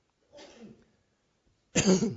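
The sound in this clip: A person who has taken a cough drop coughs twice: a short, muffled first cough, then after a pause a second that is louder and harsher.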